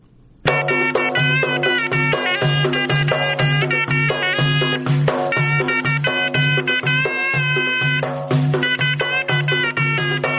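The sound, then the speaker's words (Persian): A sorna, a traditional Afghan wind instrument from Faryab, is played by a 63-year-old musician. It gives a loud, reedy, high melody with a constant low drone and regular drum beats, starting after a brief quiet moment. “این صدای سرنای است”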